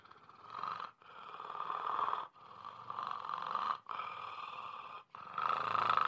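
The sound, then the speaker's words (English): A congested person breathes in a snore-like way while the uvula flutters, making five rasping, rattling breath strokes with short gaps between them in a slow, steady rhythm. The breathing is faint and heard alone. “That sound is me inhaling and exhaling and my uvula bouncing back and forth”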